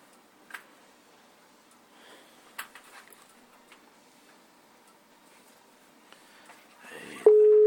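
A WhatsApp call tone: a steady, single-pitched electronic tone starts abruptly near the end and holds loudly, after faint scattered clicks and rustles.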